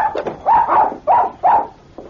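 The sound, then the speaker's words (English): A small dog barks excitedly at someone's heels as they rush into a store. It gives a quick run of sharp, yappy barks of similar pitch, loud and clear, with fainter yips at the start and end. “Dave rushed into the store excitedly with his dog barking at his heels.”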